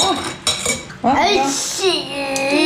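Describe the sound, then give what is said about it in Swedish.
Spoon stirring food in a bowl, with scraping and clinking of the utensil against the dish, continuing under children's voices talking throughout. “Ja, jag blandar nu.”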